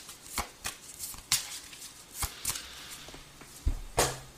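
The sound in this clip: Playing cards are shuffled and dealt for a Virgo reading, giving many crisp, irregular flicks and snaps. A few louder slaps stand out against a soft rustling between them, with no talk.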